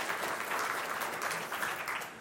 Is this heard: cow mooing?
no